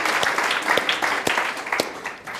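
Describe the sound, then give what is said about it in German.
Applause from a group: dense, overlapping claps that hold steady for about two seconds and then ease off slightly at the end. “Ja, das verdient einen Applaus, würde ich auch sagen.”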